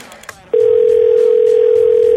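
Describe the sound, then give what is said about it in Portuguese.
A telephone dial tone sounds while a call is being placed. A few brief clicks come first, then a loud, steady, unbroken tone holds at one constant pitch to the end. “agora, rapidinho, vamos ligar aqui pra uma pessoa”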